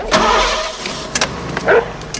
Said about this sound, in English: All right, now start the car.